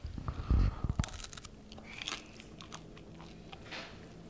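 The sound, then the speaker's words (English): A bite into a Butterbrezel, a pretzel spread with cold butter, gives a loud crisp crunch near the start, followed by a few quieter crackling crunches of chewing. “and put cold butter on it. It's called a Butterbrezel. It's really good. Okay. All right, well, let's try it. Do I try the fat part or the skinny part?”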